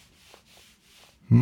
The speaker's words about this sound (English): I have no idea why I was vigorously rubbing my thigh, and I had no idea it would come across on the recording